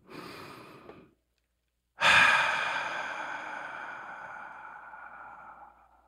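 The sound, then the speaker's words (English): A slow, deep breath taken before beginning: a brief soft breath, a moment of silence, then a long airy exhale that swells suddenly and fades gradually over several seconds, with no talking. “let's take a deep breath.”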